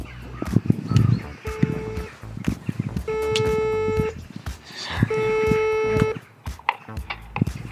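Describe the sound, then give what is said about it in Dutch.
A doorbell rings as a few short electronic tones sound in separate bursts, with people talking and other noises around them. “We gaan aanbellen.”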